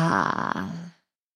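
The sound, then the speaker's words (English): A big open-mouth exhale after a deep breath, voiced and breathy like a loud 'haa', lasting about a second before it trails off. “Closing your eyes, taking a deep breath in. And then let's just have a big open mouth exhale.”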